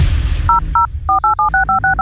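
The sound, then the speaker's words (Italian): Touch-tone keypad beeps sound as a telephone number is dialed during a radio prank-call comedy bit. A quick run of short dual-tone pips follows a brief low rumble, each beep clean and evenly pitched. “Adesso chiamo il signor Russo Giampietro”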